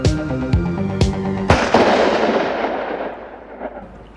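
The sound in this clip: Gunshots: four loud bangs about half a second apart. The last one leaves a long, slowly fading rumble.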